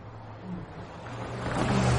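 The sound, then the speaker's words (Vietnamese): A car driving in through a south gate with its headlights on makes a low engine rumble that grows steadily louder toward the end. “Ánh đèn pha chiếu thẳng vào mặt cả hai. Có chiếc ô tô đang chạy thẳng vào trong này từ bên ngoài cửa nam.”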